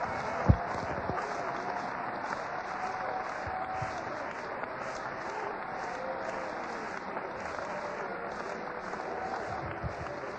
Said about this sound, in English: If you really believe it, clap your hands and give God praise.